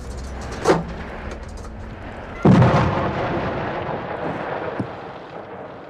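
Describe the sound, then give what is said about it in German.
An artillery gun fires a shell near Sarajevo: a smaller bang comes first, then a heavy boom with a long rumbling tail that fades slowly. A faint thud follows later. “Bis heute frage ich mich, ob er das nur wegen uns tat. Einfach mal so eine Granate abfeuern.”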